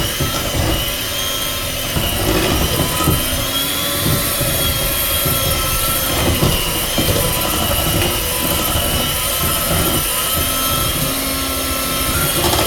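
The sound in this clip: An electric mixer running at near-top speed while beating very thick dough gives a steady, loud, dense whirring drone that holds unbroken throughout, with no voices.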